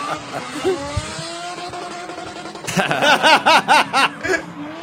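A toy ride-on electric car drifts with a steady, whiny motor hum and scraping tyres, then turns louder and choppy, with a run of rhythmic harmonic bursts over the second half.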